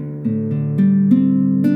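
A guitar in DADGAD tuning, its second string fretted at the third fret for a minor sound, is picked string by string, the notes building into a ringing chord that sustains.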